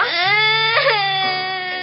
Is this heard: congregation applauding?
no